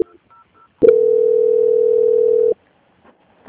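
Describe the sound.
A steady mid-pitched telephone tone marks a customer call being transferred to a bank's quality-control team. It lasts under two seconds after a sharp click, with a few faint short beeps just before it and quiet after.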